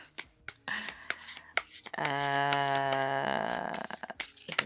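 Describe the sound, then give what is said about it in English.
Playing cards being shuffled give off scattered crisp taps and papery rubs, soft and intermittent, with a denser, sustained rustle in the middle. “How loud is this card sound? I don't know because my cursor isn't following the recording. Jeez. I hope this is ASMR for somebody.”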